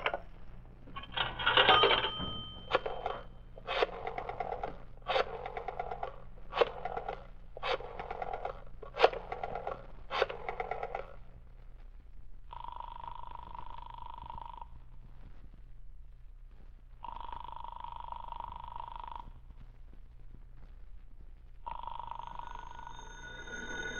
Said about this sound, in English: I'll dial that number and ask for Rittman.